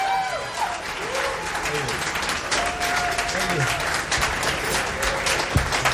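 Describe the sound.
Audience applause for the drummer at a live concert: dense, continuous clapping throughout, with a voice heard over it.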